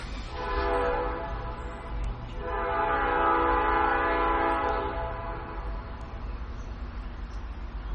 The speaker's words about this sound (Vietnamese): Chỉ cái tiếng kèn như vậy là tiếng xe lửa đó các vị.